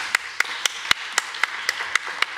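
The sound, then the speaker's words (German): Audience applause for the readers at an evening of literary readings: a steady wash of clapping with sharp, bright claps repeating at even intervals, about nine of them. “Applaus nochmal. Eine warme Hand.”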